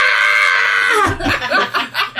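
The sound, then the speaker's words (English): A person lets out a loud, sustained, strained scream for about a second, which then breaks into several short, choppy vocal bursts. “I want to scream with the heavens now. Okay, go ahead. Scream.”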